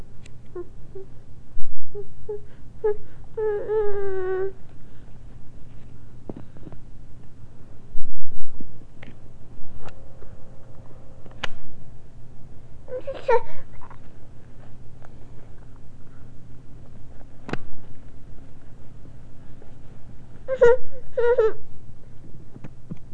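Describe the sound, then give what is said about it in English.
A baby fusses and whimpers late at night with short, wavering, breathy cries in several separate bursts, separated by quiet gaps over a steady low hum. “Why are you being fussy? Well, you're being fussy because it's late.”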